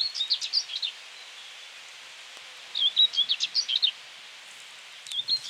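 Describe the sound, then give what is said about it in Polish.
A common whitethroat, a small bird in shrubs along the San river, sings scratchy, rapid, high chattering phrases broken by pauses. Three short bursts come through, and the last is cut off. “Cierniówka, mały ptaszek, rdzawy wierzch ciała, jasny spód, jak to u nich bywa zwykle i w krzewinkach się kręci. I zgrzytliwy trochę śpiew przerywany.”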